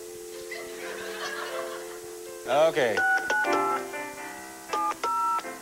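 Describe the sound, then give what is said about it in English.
Telephone keypad dialing tones played as a short bit of music: a run of several steady beeps at differing pitches. The beeps follow a warbling sound and some low murmur. “Thank you very much for the dialing music”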